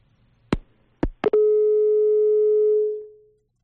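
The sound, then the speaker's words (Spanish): Busy tone after a dropped telephone call: a few sharp clicks on the line, then one steady mid-pitched tone that holds for about two seconds before fading away. “Hemos perdido esa comunicación telefónica. Vamos a intentar recuperarla.”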